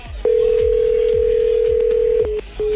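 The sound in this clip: A telephone line tone on a call-in line: a loud, steady, single-pitched tone holds for about two seconds, then breaks into shorter beeps, with faint ticking beneath.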